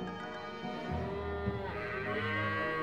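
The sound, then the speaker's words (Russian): Cattle herd mooing: low, drawn-out lowing calls overlap and hold steady for the whole clip at a moderate level, with no talk. “Бог солнца дал своему сыну неисчислимые богатства. Особенно многочисленны были стада Авгия.”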